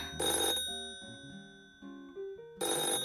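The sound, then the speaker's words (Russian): Telephone ringing in two loud, bright bursts at the start and the end, with quieter tonal notes between them and no voices. “А вот и второй звонок.”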